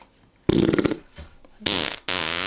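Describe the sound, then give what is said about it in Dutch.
A fart sound: a loud, raspy, sputtering burst, then a brief weaker one, followed by two buzzy, tonal blasts with no talk around them. “Gewoon een scheet eigenlijk.”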